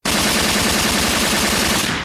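An automatic gunfire sound effect, a loud, unbroken burst of rapid shots lasting about two seconds, heard alone.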